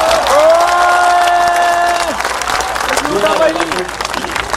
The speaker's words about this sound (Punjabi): ਇਹ ਬਾਪੂ ਦਾ ਦੇਣਦਾਰ ਹੈ, ਮੈਂ ਇਹਦੇ ਨਾਂ ਤੇ ਇੱਕ ਤਾੜੀ ਮਾਰ ਦੋ।